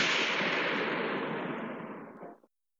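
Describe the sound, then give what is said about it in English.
A gunshot from a gun held to the temple: a single loud, broad blast with a long, fading tail that trails off over about two seconds before silence. “as he puts the gun to his temple and pulls the trigger.”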